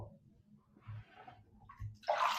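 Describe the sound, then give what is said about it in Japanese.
Hands splash bathwater in a bathtub, a few soft, low sloshing movements that end in a brighter, louder splash. “チャプチャプやってないで。肩にお湯かけた肩まで掴んなさいってば。”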